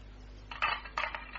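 Keys are tried in a lock, producing a few faint metallic clinks and light rattles over a steady low hum.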